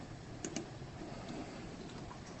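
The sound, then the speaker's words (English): Two soft clicks of a presentation slide being advanced, brief and close together against a faint, steady background hiss. “Clicking slide.”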